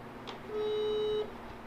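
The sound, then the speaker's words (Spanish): Ringback tone of an outgoing telephone call: a single steady electronic beep lasting under a second, moderately loud and heard alone, with no talk over it. “A ver, está sonando. Esperemos que conteste, ¿no?”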